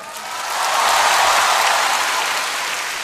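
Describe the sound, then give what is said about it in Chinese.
An audience claps, a dense wash of applause that swells quickly, holds loud, then eases slightly toward the end. “拍手掌 ，OK？”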